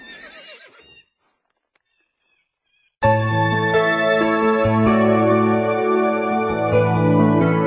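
A horse whinnies briefly as riders approach from the south. After a short silence, a loud, steady tonal sound begins and carries on to the end.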